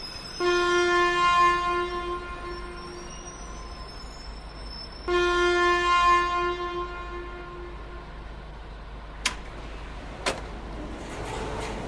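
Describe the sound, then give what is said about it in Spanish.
An express train's horn sounds as the train departs: two long, loud blasts of steady multi-toned pitch separated by a pause. Two sharp, brief clanks follow over a low rail rumble. “El expreso Estación María anuncia su inminente partida”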